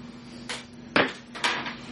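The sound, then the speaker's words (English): A door being opened at a house behind a shop: three short clattering bursts of latch and hinge noise, the middle one loudest, over a low steady hum, with no talk. “I'm gonna knock on the door. And he opens the door.”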